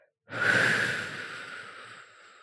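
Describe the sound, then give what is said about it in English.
A single long breath from a relaxation exercise, breathing in through the nose and out through pursed lips: a loud, airy hiss that starts abruptly and slowly fades away over about two seconds. “in through the nose for 4 seconds, hold, and then out through pursed lips for 8.”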